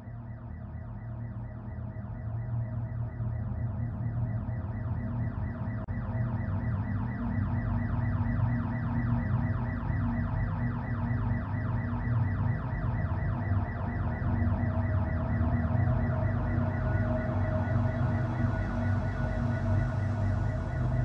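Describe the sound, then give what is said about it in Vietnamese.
An electronic security alarm blares without stopping, a loud cycling tone with a repetitive warbling pulse that holds steady for the whole stretch, with no voices. “có lẽ cô gái tội nghiệp kia đã kịp bấm chuông báo động, nên hắn đã nhanh chóng xả lưới.”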